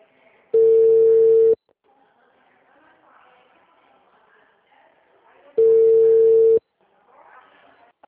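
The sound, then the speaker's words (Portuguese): Telephone tones sound after a call line drops: two identical steady, mid-pitched beeps, each about a second long and loud, spaced several seconds apart with quiet in between. “Oi, caiu a linha. Caiu.”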